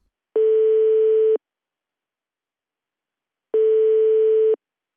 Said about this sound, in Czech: Hned mu volám.